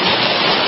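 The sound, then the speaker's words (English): Heavy tropical-storm rain pouring down in Florida, a dense, loud, unbroken hiss of falling water that holds steady throughout. “This is the sound of a downpour.”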